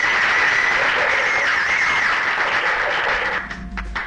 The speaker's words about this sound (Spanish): Estos aplausos son para vos.